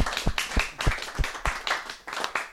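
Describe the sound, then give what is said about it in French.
Audience applause, with people clapping in a loose, fairly regular series of distinct claps of moderate loudness and no voices over them. “Voilà, on recommence, on applaudit, là.”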